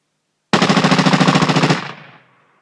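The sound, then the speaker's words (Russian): Automatic gunfire at a street barricade during a science-fiction battle: one loud, rapid burst lasting just over a second, its shots rattling in a tight stream before cutting off into a fading echoing tail. “Как только первое заграждение было прорвано, они тут же открыли огонь по данному участку.”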